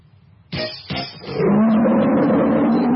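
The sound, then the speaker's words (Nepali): A tiger roars loud and sustained, with a deep, rough growl that holds steady to the end. Two sharp, bright impacts come first, about half a second apart. “गर्जन छ सधैँ बाग झैं radio tiger 99.2 megahertz”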